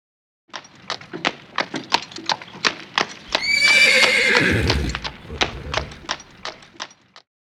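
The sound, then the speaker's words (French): A horse neighs in one loud, shrill whinny lasting over a second, set against a steady run of clip-clopping hoofbeats that continues before and after it. “I can hear a horse. J'entends un cheval.”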